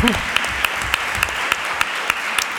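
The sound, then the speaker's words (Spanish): Applause for a team of workers at an event: steady, dense clapping, with sharp individual claps accented at an even beat throughout. “yo creo que se merecen un aplauso doble porque han trabajado, me han aguantado”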